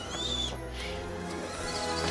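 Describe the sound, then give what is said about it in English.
A bird's high, shrill call rings out briefly at the start of a film trailer. It sits over a dense, steady bed of music that carries on after the call fades. “bloody bird's a menace”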